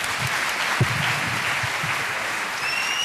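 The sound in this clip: An audience claps in steady, continuous applause, a dense wash of many hands that stays even and loud from start to finish.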